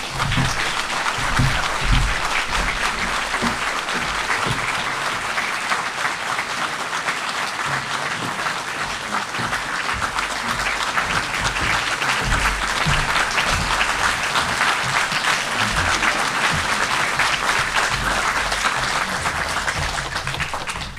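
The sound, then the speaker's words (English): Audience applause welcomes two speakers onto a forum stage, a loud, dense, sustained clapping from a large crowd that stays steady for about twenty seconds. “So please put your hands together and join me in welcoming to the Me Inform stage, Rosalie Abella and Adam Gopnik.”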